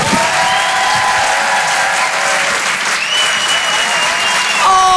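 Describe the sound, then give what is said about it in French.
Audience applause at a comedy club in Paris, dense and steady clapping from a large crowd sustained throughout, with faint shouts or whistles mixed in and a slight swell near the end. “Faites du bruit, s'il vous plaît, pour le phénomène Paul Taylor.”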